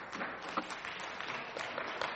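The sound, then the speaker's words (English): Applause from a church audience during a morning service: soft, dense clapping that stays steady and faint throughout, with no voices standing out. “let's put our hands together for Jesus.”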